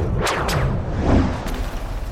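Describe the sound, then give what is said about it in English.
Laser weapons fire in a sci-fi space race, a few sharp zaps that sweep quickly downward in pitch, spaced unevenly over a dense low rumble. “Bezor appears to be firing lasers at Ellie. Are they good lasers? No, the bad kind, the killing kind.”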